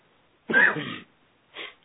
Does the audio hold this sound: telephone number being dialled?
no